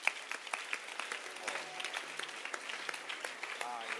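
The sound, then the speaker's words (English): An audience claps its hands during a church service. Many quick claps run at a fairly even pace, fairly soft overall, with voices mixed in among them. “Clap your hands.”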